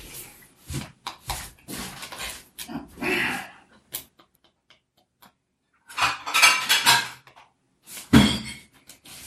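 Plates and cutlery clatter as salad is served at a table: a few sharp, uneven bursts of clinking dishes with quiet gaps between them.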